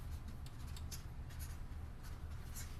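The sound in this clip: Faint scratchy strokes of someone writing words on a board during a talk, with a few quick rasping marks spread across a quiet, steady background.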